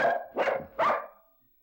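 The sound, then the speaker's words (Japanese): A dog barks three times in a steady rhythm, each bark moderately loud and alone, the last one trailing off into quiet. “こいつは名犬バンディ”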